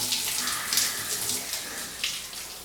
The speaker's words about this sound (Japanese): 右耳からお湯中に入らないように気をつけて、